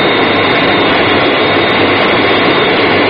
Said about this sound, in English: Aircraft on glide path, 3 miles to threshold.